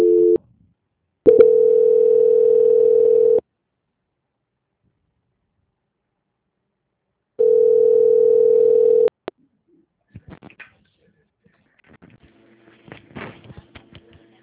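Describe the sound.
Telephone tones play while a call is being transferred: a brief tone, then two long, steady, mid-pitched beeps separated by a long silence, followed by a few faint clicks and soft line noise.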